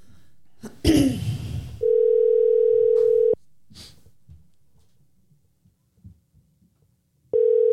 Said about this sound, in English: Let's give him a call.